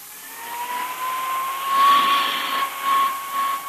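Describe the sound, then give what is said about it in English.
A hand vacuum cleaner run over a coat gives a steady, loud whirring hiss with a thin constant whine, swelling slightly a couple of times as the nozzle moves. No voices are heard. “what's the point of going over that coat with a hand vacuum?”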